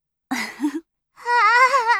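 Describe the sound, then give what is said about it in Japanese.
A woman crying: a short, broken sob, a pause, then a longer, high, wavering wail. “褒められているわけではなさそうだが、とにかく泣かないでくれ。 はい、そうですよね。こんな時に泣くだなんて、私どうかしてます。”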